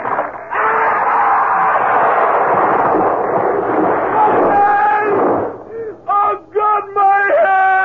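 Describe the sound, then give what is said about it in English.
A horse-drawn carriage tipping over and crashing: a loud, dense rumbling crash runs for several seconds, then a few short, harsh tonal cries in quick succession. “Friends, look out! Look out! Listen! The carriage is tipping!”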